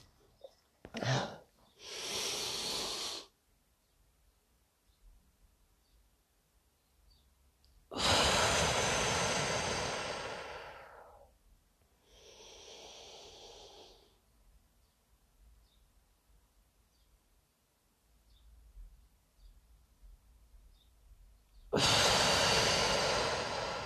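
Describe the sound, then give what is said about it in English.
Slow, deep breathing in the 4-7-8 pattern, with a few long, loud inhales and exhales separated by quiet held pauses. No voice is heard. “So by focusing on our breath, that would allow us to drop our thoughts that are in the other realms and bring it to now. So here we go, 4, 7, 8.”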